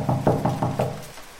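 Knuckles rap on an apartment door: five firm, evenly spaced knocks in quick succession, then the sound dies away into quiet, with no voices.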